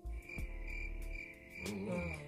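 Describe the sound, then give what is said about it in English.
Crickets chirping as a sound effect, a faint, steady high-pitched chirring that continues unbroken throughout. “Insert crickets.”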